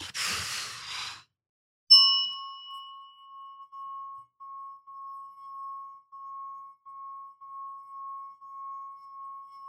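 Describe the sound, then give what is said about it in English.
A single deep breath is heard as a brief airy rush, then a clear ringing chime begins and repeats as steady, evenly spaced tonal pulses that hold one pitch. “Deep breath in. And there out.”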